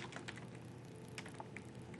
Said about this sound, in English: I'm a horrible typer, especially when people are watching